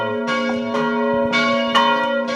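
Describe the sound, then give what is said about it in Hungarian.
Church bells ring out to call the faithful to mass, sounding a few clanging strikes whose bright, sustained tones hum on and overlap, loud and unaccompanied by talk. “itt közben már a misére hívó harangszó szólt.”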